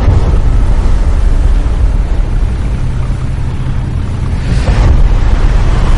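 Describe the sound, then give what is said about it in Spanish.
Ocean waves break against a sandbar near a boat in a steady, loud roaring wash, with wind buffeting throughout and a slight swell in intensity near the end; no talking. “Voy a tener que escuchar la olas romper contra el banco.”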